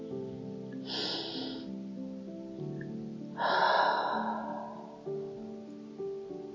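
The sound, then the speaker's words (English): A deep breath is drawn in through the nose, then slowly exhaled through the mouth. Both breaths are soft and airy over faint sustained music, and the exhale is longer and fuller. “I want you to breathe deeply, in through your nose, holding it for a brief moment, and then slowly exhaling through your mouth.”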